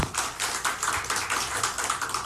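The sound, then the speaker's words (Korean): A church audience claps in praise to God. The claps are steady and rhythmic, fairly faint and evenly paced, with no talking over them. “하나님께 영광의 박수 올려드리겠습니다.”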